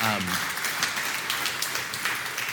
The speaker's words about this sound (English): You can clap for that.